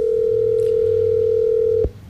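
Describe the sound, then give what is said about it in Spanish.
A phone ringing tone plays while a call tries to connect over a poor signal. It is one loud, steady, single-pitched tone that holds, then cuts off abruptly, leaving low background hum. “¿sigue timbrando? Creo que ella está como mal de señal porque la llamada intenta entrar, pero no. Vamos a intentarlo una vez más”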